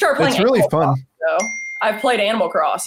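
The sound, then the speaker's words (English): Phone notification chime: a brief high electronic ding sounds in a short pause between stretches of conversation, with people talking before and after it. “And there's your notification.”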